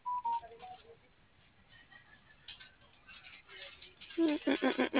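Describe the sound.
Telephone keypad tones beep as a number is dialed: a quick run of short, clear beeps near the end, with a thinner tone and softer tones earlier, and faint voices in between.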